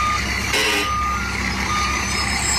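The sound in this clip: A reversing truck sounds its backup alarm, a steady series of beeps over the constant rumble of the engine.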